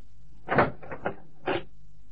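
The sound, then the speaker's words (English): A car boot is opened with a few short clicks and thuds from the latch and lid, spaced unevenly and moderately loud against a quiet background, with no voices. “Open up the boot, please”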